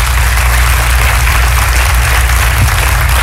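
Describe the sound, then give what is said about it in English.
Audience applause for viewers joining an evening teaching session, a steady, dense wash of many clapping hands that stays loud and even throughout, with no voices. “But I want you to give a big hand to our friends joining us by television as they become a part of our session tonight.”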